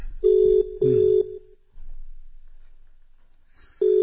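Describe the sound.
A telephone rings as a call is placed: two short, mid-pitched buzzing tones in quick succession, a pause filled with faint hiss, then another tone starting at the very end.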